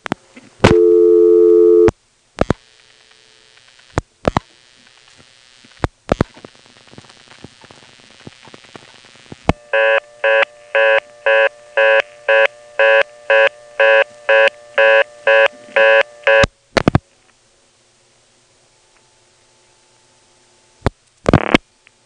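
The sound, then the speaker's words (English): Telephone reorder tone on a tandem trunk line, followed by clicks from a trunk flash and dialing, then a long run of rapid, evenly pulsed tones, and finally a faint, steady test tone. “On this next call, I get the reorder by dialing 311. Then I do a long flash to reset the tandem trunk, dial 26 for Edenton, and then a number that goes to a 1000 hertz tone.”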